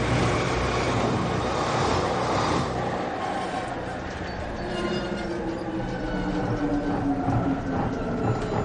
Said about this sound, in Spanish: Se levanta cuando el metro se acerca a su parada.